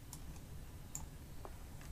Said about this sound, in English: And now people get mad at me if I don't hit F5 at the end here.